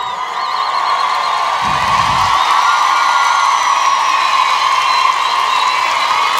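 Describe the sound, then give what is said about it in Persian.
A crowd of people celebrating in the street, an unbroken, dense roar of cheering and shouting voices that stays at a steady level throughout. “بچه‌های هوافضا، بچه‌های سپاه، بچه‌های ارتش بشنوند شادی مردم خیابان.”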